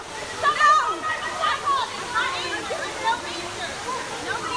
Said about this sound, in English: That sound is obviously the waterfall in the background.